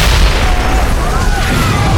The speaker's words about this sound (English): The power of the explosion cracked windows and sent some people stumbling off the boardwalk and into the street.